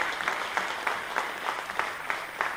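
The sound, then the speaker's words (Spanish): Audience applause for Argentina's president Alberto Fernández, a steady mass of clapping with a regular pulsing rhythm that rises and dips in quick beats throughout. “aquí vamos a mandarle un aplauso grande a quien dio la instrucción para que esto se ponga en marcha, que es nuestro presidente de la Nación, el doctor Alberto Fernández. A él le demos el aplauso por instrumentar estas políticas”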